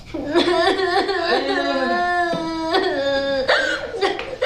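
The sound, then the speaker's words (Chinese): A person crying, heard as a loud, wavering sobbing voice in short bursts with catching, hiccup-like breaks. “哎，哭什么呀？谁惹你了？”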